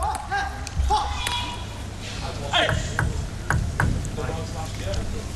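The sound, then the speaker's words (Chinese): Table tennis ball bouncing as Lin Shidong gets ready to serve: a few sharp, light pings at uneven intervals, with commentators talking over them. “看林诗栋发球。”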